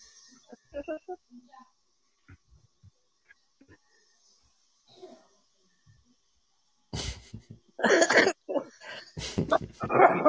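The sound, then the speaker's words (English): Harsh coughing bursts, several in quick succession and loud, crowd the last few seconds, after a stretch of faint, scattered sounds. “Cough your lung up”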